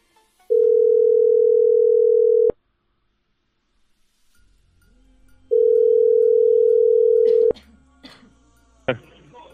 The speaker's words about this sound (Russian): Звоню кликом.